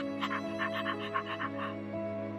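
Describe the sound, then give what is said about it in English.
Rapid panting from a person imitating a dog: many short, breathy puffs in a quick, even rhythm over a steady tonal background. “practice panting like a dog. Breathe in and pant. Good. Breathe in and pant.”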